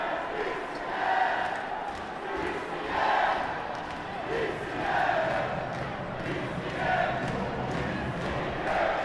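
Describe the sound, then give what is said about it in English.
About 25 to 30 travelling football fans from Gothenburg cheer and chant wildly at a match against Hammarby, their voices rising and falling in regular swells roughly every two seconds over steady crowd murmur. “And those 25 or maybe 30 fans from the travel from Gothenburg going absolutely crazy. As you can hear.”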